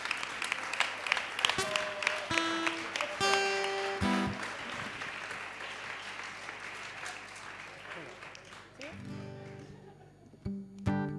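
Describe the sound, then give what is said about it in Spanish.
An audience claps at length in sustained applause, with a voice speaking over parts of it, before the clapping thins out toward the end. “Así que el aplauso para vosotros también.”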